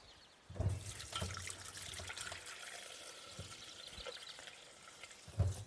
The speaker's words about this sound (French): Et je vais laver tout de suite mon blender pour pas que ça sèche.